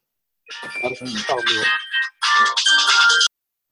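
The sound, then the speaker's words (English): A mobile phone ringtone plays a bright electronic melody in two bursts separated by a brief gap, then stops abruptly. “Sorry, that was my phone.”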